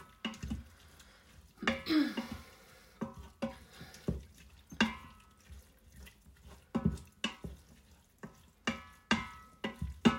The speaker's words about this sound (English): And I will continue my stirring. So this will caramelise your onions as well. Make them nice and soft.